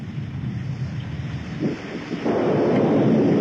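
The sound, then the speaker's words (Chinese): Rushing floodwater pours down a mountainside in a radio drama, a broad, steady roar that swells noticeably louder partway through and then holds at full strength, with no voices. “哎呀，山水下来了。哎，小兰，快往坡上跑，上老山头。”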